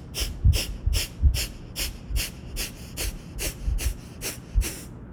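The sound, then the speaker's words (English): Rapid, forceful breaths burst out through the nose in a steady series of about a dozen sharp, hissing puffs, evenly spaced and fairly quiet. “take a deep breath in through our nose. And then like 10 big bursts.”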